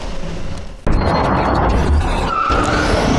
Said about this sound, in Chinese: 即将在双休日驶上上赛场的 F1 远景车队的赛车，今天已经先行来到了这里